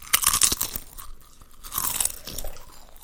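A woman eats crunchy chips with loud, irregular bursts of crunching and chewing, sharpest at the start and easing into quieter mastication, with no talking.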